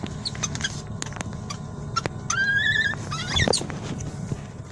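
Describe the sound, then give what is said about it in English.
Baby monkeys explore a plexiglass cage with toys, giving high, wavering squeaks and chirps over constant small taps, scratches and clicks. A longer warbling squeal rises out near the middle. “Oh, that's the sound of some really cute baby monkeys. They're exploring their little plexiglass cage. They have some toys. One of them topples over.”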